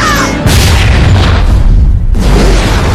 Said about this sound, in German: Die Gasflasche sucht sich ein besonderes Ziel.